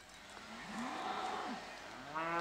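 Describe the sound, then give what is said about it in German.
Cattle mooing on a farm pasture, a beef bull among the herd, giving a few drawn-out, moderately loud moos that bend in pitch, with no talk over them. “Eigentlich muss nur der Schlachtbulle auf den Hof. Doch der bleibt ruhiger, wenn die anderen Rinder dabei sind.”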